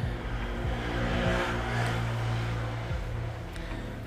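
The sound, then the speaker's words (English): A motorbike drives past outside an open window, its engine a steady, moderately loud drone with a low buzzing tone throughout and no voices. “the motorbike that just drove past her house, folks. I mean, I should have my window shut.”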